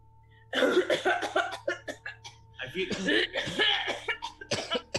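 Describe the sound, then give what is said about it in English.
People cough in many hoarse, uneven bursts that begin after a quiet start, mixed with chuckling and a voice throughout. “I'd guess it's the ones coughing.”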